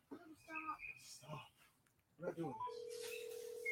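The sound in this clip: Phone call ringing through: after a few moments of low talk, a steady single-pitch ringback tone comes in and holds unbroken to the end.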